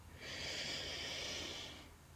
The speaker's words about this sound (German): Atme einmal tief ein und wieder aus.